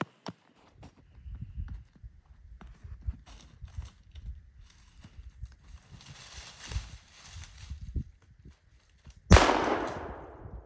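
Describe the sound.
A single loud gunshot rings out while hunting in a brush pile, a sharp crack with a ringing decay that comes after a long stretch of faint rustling and shuffling movement.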